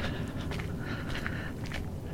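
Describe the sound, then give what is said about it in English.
Footsteps of a person out walking alone, a few soft, evenly spaced steps over steady background noise. “I'm going for a walk by myself, which is something that I have not done in a long time”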